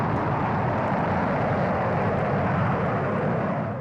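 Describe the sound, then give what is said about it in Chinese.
Deep, steady rocket roar as a Dongfeng-2A missile ignites and lifts off from its launch site: loud, dense and unbroken from start to finish, with no voices. “一枚东风2号甲导弹点火起飞。”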